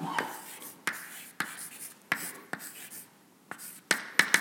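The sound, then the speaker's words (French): Results are written out by hand as a series of sharp scratching strokes and taps. They come at uneven intervals and stand out clearly from a quiet background. “je vais calculer, je vais vous écrire les résultats pour delta H et pour Vx.”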